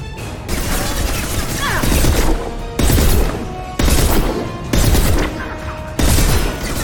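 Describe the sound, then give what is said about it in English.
Sniper rifle shots with incendiary ammo in a video game: a few loud, abrupt blasts about a second apart, each sustained as a dense, noisy roar before cutting off. “Disruptor down. Switch to sniper rifle.”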